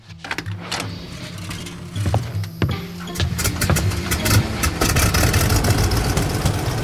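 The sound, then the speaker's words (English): A car engine starts with a brief whine and settles into a steady idle. The rumbling sound is fairly loud and continuous throughout, with scattered clicks and rattles over it. “When I fire up Charlie's engine, it whines for a second, then settles into a nice purr.”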